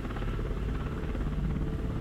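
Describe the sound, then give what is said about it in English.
Steady low drone of a Chinook helicopter in flight as it descends toward Mihail Kogalniceanu Airport by the Black Sea in Romania, a dense, even rumble with a faint beating texture throughout and no voices. “After hours in the Chinook, we finally begin our descent.”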